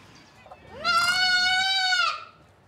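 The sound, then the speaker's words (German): A young goat kid gives one clear, drawn-out bleat lasting over a second. Its wavering pitch rises at the start and then holds steady before cutting off. “Ja, geh, lauf. Lauf schnell. Zurück zur Mama. Gleich noch das zweite Geißlein.”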